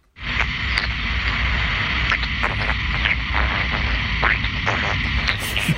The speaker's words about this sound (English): That is some curious creature. It's the sound of a data centre, recorded by Muller Divyak.